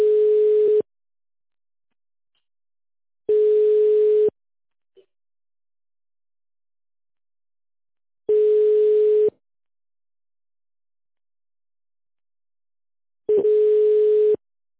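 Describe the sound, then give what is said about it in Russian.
Ringback tone on a telephone line while a call is being forwarded: four steady, mid-pitched beeps of about one second each, spaced several seconds apart with silence between. “Пожалуйста, оставайтесь на линии, идет переадресация вызова.”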